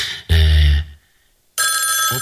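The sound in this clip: A telephone rings as a listener calls in. A loud, low burst is followed by a short silence, then a bright, shrill ring starts near the end.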